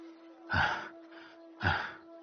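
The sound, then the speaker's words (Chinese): An old man's heavy, panting breath as he recovers from gasping: two loud, rough breath bursts about a second apart, with quieter breathing between them over a steady faint tone. “一老者平息了一下急喘的呼吸说：”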